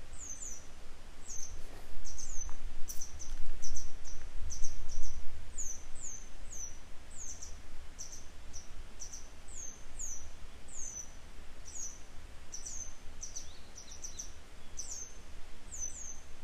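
A parent grey wagtail calls while flying overhead, giving many short, high, sharp chirps in a steady repeated series over a low rumbling background.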